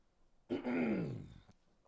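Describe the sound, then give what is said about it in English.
A single low throat clear lasting about a second. It opens with a sudden rough burst, and its pitch sinks steadily before it stops abruptly. Quiet, with silence on either side. “Let me clear my throat”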